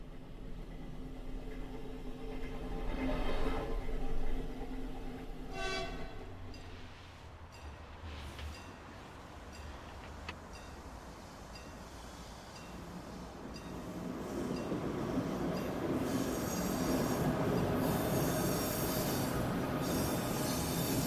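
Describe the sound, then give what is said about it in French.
A tram in Rijeka, Croatia, squeals its wheels in tonal bursts during the first seconds. A broad rolling rumble then builds and stays loud to the end. “Et nous voici à Rijeka, en Croatie, avec le tram.”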